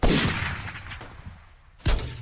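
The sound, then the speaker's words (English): Two loud, sharp shots from an AX-17 assault sniper rifle fired at a sniper bot, each followed by a decaying tail. A fainter thump falls between them. “AX-17 assault sniper rifle with telescopic laser digital scope. If we have any chance here, you'll need to take out that sniper bot.”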